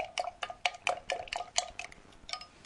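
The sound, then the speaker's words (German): A plastic stick stirs tomato juice seasoned with salt and pepper, making many quick, faint clinking taps in an uneven rhythm that continue throughout. “Und etwas Salz. Und dann natürlich mit so einem Plastikstäbchen umrühren.”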